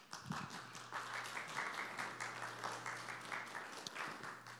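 Audience applause welcoming a guest: faint, steady clapping from many hands continues throughout, with a low hum beneath it.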